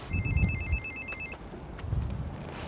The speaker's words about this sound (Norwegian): Nå kommer jeg til å ringe på.